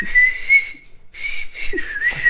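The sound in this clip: Whistled melody in a song by a German band about a man whistling on a ship: a clear, steady high whistle line that drops out briefly near the middle, then resumes.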